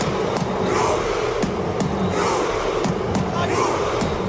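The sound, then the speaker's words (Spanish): Norway football fans perform the Viking rowing celebration, a dense crowd roar cut by steady, evenly spaced beats that repeat throughout. “Ahí está, el famoso remo vikingo que está enamorando a medio mundo.”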